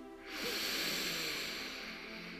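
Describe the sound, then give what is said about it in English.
A deep breath drawn in through the nose, a soft airy hiss that swells up and holds steadily for about two seconds, faint and heard alone. “let's just take a deep breath in through the nose.”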